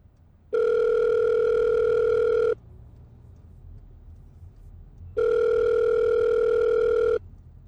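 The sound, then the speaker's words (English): A phone call rings out on speakerphone as two long, steady ringback tones, each about two seconds, separated by a quiet pause. “Do you want to call and put it on speaker? Sure, one sec.”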